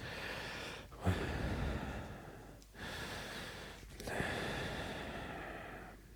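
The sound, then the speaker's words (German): A person breathing heavily: a few long, rough, airy breaths, each running a second or more with brief gaps between them, steady and fairly loud with no talking. “Ich sag nichts dazu, ich atme nur schwer.”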